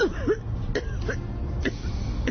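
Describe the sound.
A few short, raspy coughs and throat-clearing sounds come from a person with a persistent cough. They arrive as separate rough bursts spread across the moment.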